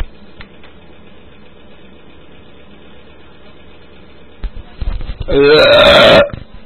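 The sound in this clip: A single loud, drawn-out burp erupts near the end after several seconds of a steady low background hum.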